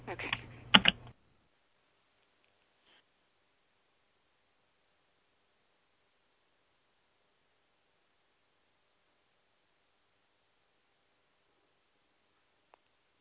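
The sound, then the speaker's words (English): Computer clicking as a caller's name is selected: a short burst of sharp clicks lasting about a second, then near silence with one faint tick near the end. “Someone just hit star zero. One moment while I click their name.”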